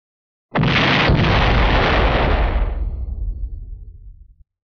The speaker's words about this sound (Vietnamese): sau lưng liền có một tiếng vang thật lớn truyền đến.